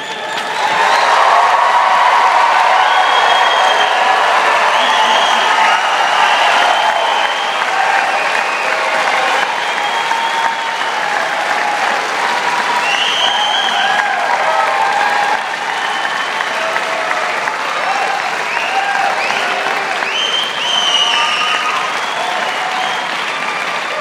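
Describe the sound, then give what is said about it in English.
Loud, sustained applause and cheering for graduates: a dense wash of clapping with whoops and shouts that runs for the whole stretch, easing slightly past the midpoint. “I'm asking you to cheer for these graduates as if our lives depended on them, because they do.”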